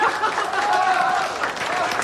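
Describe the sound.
Brief applause with crowd chatter at a table tennis match after a point is won. Moderate clapping blends with murmuring voices for about two seconds.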